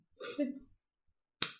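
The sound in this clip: A single sharp slap, delivered with a licked hand during rough play fighting, lands as one loud crack after a brief burst of voice and shuffling sound and a short silence.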